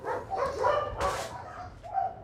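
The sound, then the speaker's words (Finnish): Dogs barking and yipping at a kennel holding over a hundred dogs, a few fairly faint barks and whines in quick succession with a brief sharper burst near the middle. “Tarhalla on päälle 100 koiraa ja siellä työskentelee 9 ihmistä.”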